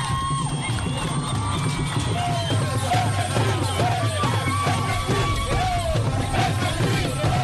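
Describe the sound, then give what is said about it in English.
Crowd of fans singing and beating drums at Juba International Airport to welcome South Sudan's men's basketball team home from the FIBA World Cup, a dense, continuous mass of wavering voices over a steady low rumble. “Thousands of joyous fans sang and beat drums at Juba International Airport to welcome the South Sudan's men basketball team following their first appearance at the FIBA World Cup in Philippines, Manila.”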